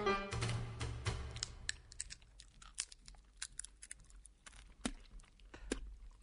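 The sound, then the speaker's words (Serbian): Seeds being nibbled and cracked between the teeth, a faint, irregular series of many small sharp crunches and clicks with quiet pauses between bursts. “Šta radiš? Grickam semenke.”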